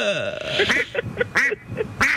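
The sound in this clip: Voice imitating a duck quacking, a run of short nasal quacks in an irregular rhythm, fairly loud, with a brief stretch of talk at the start.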